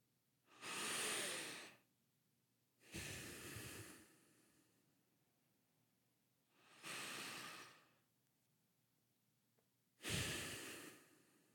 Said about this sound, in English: Let's start with two deep breaths.